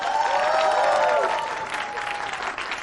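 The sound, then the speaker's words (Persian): A studio audience applauds a band with a steady roar of clapping. A fading tonal ring sounds at the start before the applause carries on alone and eases off slightly. “لطفاً یک دست مرتب هم برای بند سیبیل. به افتخار رهبر ارکستر نیما فخارا.”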